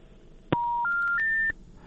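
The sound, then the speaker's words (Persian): Electronic telephone tones as a caller's line is cut off: a sharp click, then three steady beeps stepping upward in pitch in quick succession, alone and lasting about a second in total. “تماس شنونده ما متاسفانه قطع شد، از ولسوالی دند ولایت قندهار زنگ زده بود.”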